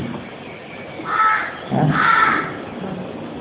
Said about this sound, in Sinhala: කොහෙද කාක්කා ඉන්නේ? අර පැත්තේ.